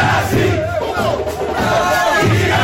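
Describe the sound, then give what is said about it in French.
A jubilant crowd of fans cheers and shouts in welcome as a footballer, the Champions League Golden Boot winner, arrives at the airport. The clamour is loud and continuous throughout. “Après un passage dans le salon VIP, il a communé avec ses fans en liesse.”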